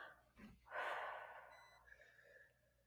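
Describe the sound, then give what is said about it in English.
One deep breath in and out during a stress-relief tapping exercise: a faint, airy rush of breath that swells quickly and then fades slowly over a couple of seconds. “take a deep breath in and out again.”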